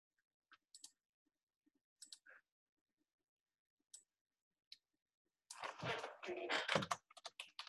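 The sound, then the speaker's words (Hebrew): A few sparse clicks of typing on a computer keyboard come while notes are written during a lesson. The clicks are short and widely spaced, and a voice starts speaking toward the end. “אני רק רוצה לכתוב מה שראינו מדברי הרשב"א”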